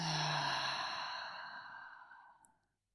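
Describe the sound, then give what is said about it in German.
One long exhale through the mouth during a guided breathing exercise: a loud, breathy rush of air that fades gradually over about two and a half seconds, then silence. “atme mit mir gemeinsam, egal wo du gerade bist, in deinem Tempo ein und wieder aus, über den Mund.”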